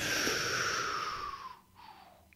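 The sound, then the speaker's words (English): A deep breath drawn in during a calming breathing exercise, a long airy inhale of over a second, then a brief pause and a shorter, softer breath sound. “On the count of three, breathe in as deep as you can and hold it in the foundation of your lung. One, two, three.”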